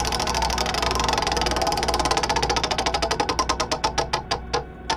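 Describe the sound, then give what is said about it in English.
Ticking of a prize wheel being spun: rapid clicks that gradually slow and spread farther apart until the wheel stops, with no voices. “let's do the business and let's spin that wheel!”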